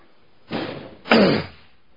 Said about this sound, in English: I don't know if there's fireworks going on outside or a lot of banging going on. What a night to do a show when you got firecrackers going off in the neighborhood.